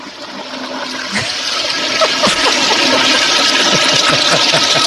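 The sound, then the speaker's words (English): A reversed toilet flush, the sound played backwards: rushing, gurgling water that swells steadily louder over about five seconds, with no talk over it. “she gets a reverse swirly, which sounds like this.”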